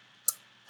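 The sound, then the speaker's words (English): Two short, crisp tongue clicks of the tsk kind, made by pressing the tongue on the alveolar ridge behind the front teeth and sucking it back, dry and sharp, with a brief pause between them. “you actually press your tongue on the alveolar ridge right behind your front teeth. There's a bony ridge, and you suck backwards on it.”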